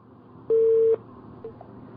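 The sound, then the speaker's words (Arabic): A telephone busy tone after a dropped call on a call-in consultation line: one steady mid-pitched beep of about half a second, then a faint short blip over low line hiss. “الحقيقه اتصال اتقطع”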